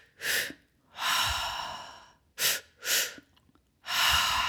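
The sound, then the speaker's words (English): Deliberate mouth breathing in a breathwork pattern of two short inhales and one long exhale: loud, airy bursts, a quick breath and a long drawn-out exhale, then two quick breaths and another long exhale. “one way you can start out is by two short breaths in through your mouth and one long one out. So it sounds like,”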